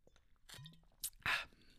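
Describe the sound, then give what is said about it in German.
Someone takes a quick sip of a drink: faint soft mouth clicks, then a brief louder slurping burst near the end, with no talk. “Und jetzt muss ich mal kurz einen Schluck trinken.”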